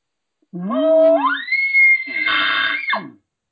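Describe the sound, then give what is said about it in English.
A human voice imitates a bull elk bugle, short and screamy. It climbs from a low tone into a long, high, whistling note, turns harsh and raspy, then cuts off abruptly. “So, again, the sound's very short, very screamy. Kind of, it usually ends in, you know, what we in the industry call a lip ball, but it's usually just a bull going a bit over pressure. So it sounds like this.”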